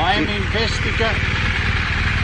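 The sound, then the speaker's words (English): Motorcycle engine idling: a steady, low, throbbing rumble with a regular pulse continues throughout, while a man talks over it in the first second. “You've just stepped off your motorcycle and you're stepping towards me.”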